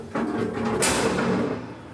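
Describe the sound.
Sliding gate of a polar bear stall opening: a continuous rough scraping rumble with a brighter hissing rasp midway through, fading slightly toward the end.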